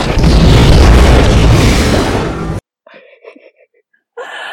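Ship weapons firing and exploding, a loud, sustained booming roar of about two and a half seconds that cuts off abruptly, followed by brief faint sounds and then a renewed burst at the end.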